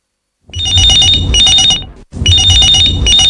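Telephone ringing for an incoming call sounds as two loud bursts of rapid, trilling bell-like rings, separated by a brief gap, with no voices.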